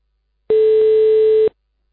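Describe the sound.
Ringing tone of an outgoing telephone call: a single loud, steady, mid-pitched tone lasting about one second, heard alone with silence before and after.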